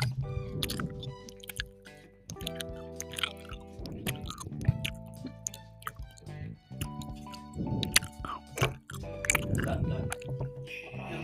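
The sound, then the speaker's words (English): Wet, squishy chewing of gummy candy close to the mic, many repeated bites and squelches over about eleven seconds with music playing softly underneath. “now we're getting some gummy ASMR”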